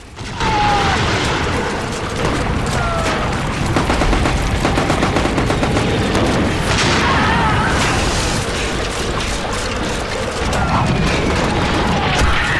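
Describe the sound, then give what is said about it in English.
Artillery shells bursting in mud on a battlefield: a dense, loud barrage of many booms and sharp cracks, overlapping without pause for the whole stretch. “run into a barrage of shells which explode around them in the mud”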